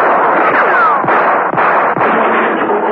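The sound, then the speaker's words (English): Gunshot fired at dawn in a mews, the bullet striking a man who falls among dustbins; a loud, dense roar of noise runs throughout, broken by a few sharp cracks, with no voices. “The impact of the bullet spun George Neville round, and he fell among the dustbins. John Steed and Emma Peel, hearing the shot, tore out of Steed's apartment.”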